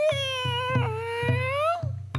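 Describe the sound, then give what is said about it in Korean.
A human voice imitates a cat's meow: one drawn-out, nasal, wavering meow that dips and then rises in pitch, over a low, rhythmic background hum. “이제부터 고양이가 나올 거예요. 우리 고양이 울음소리도 한번 내볼게요.”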